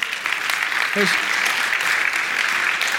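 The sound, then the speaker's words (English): Audience applause for a woman invited up to the front, steady dense clapping throughout, with a brief voice breaking through near the start. “So I'm going to invite Catherine to come on up. And so let's give Catherine a big hand.”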